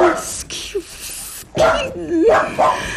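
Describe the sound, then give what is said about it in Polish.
A poodle gives a few short, high yips and barks, mixed in with people talking. “To nic, to tylko pudel pani Palladino. Szczekaj, gdy ona wpada w trans.”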